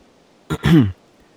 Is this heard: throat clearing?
yes